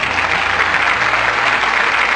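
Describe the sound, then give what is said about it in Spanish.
Canned applause played as a sound effect on a talk show: loud, dense and uniform clapping that runs steadily from start to finish with no voices over it. “Bájamele los aplausos, por favor.”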